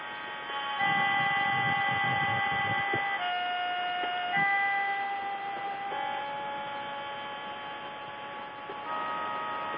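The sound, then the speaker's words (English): A tone for the throat chakra rings out: steady, sustained harmonic tones held alone at a moderate level, shifting pitch a few times with no break. “Now, the throat chakra sounds like this.”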